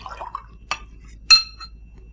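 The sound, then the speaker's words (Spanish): Glass clinks as a drink is poured into a wine glass for a refill, with a faint liquid sound at first and then two bright, brief clinks, the second louder. “¿Puede servirme otra copa?”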